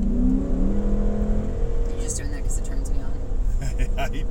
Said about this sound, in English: Obviously, we're in the car again. Yes. So, sorry about the background noise and my Hemi.